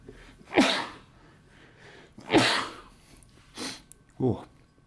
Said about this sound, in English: even I sneeze thinking about James Harden being good.